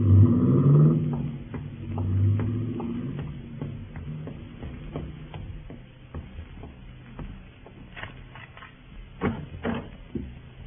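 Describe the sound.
A car drives off, its engine rumble loud at first and then fading away, with faint ticks and clicks left behind.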